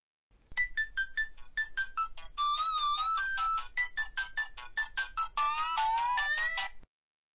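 A phone ringtone for an incoming call, a rapid electronic melody of bright repeated notes that plays loudly and steadily for about six seconds, then stops.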